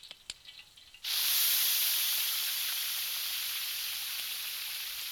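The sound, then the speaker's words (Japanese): Meat sizzling in oil as it is grilled: after a brief quiet moment, a loud, bright hiss starts abruptly and holds steady, easing only slightly toward the end. “こう入れて、では焼いていきましょう。”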